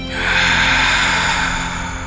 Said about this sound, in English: Take a breath. I'm inhaling.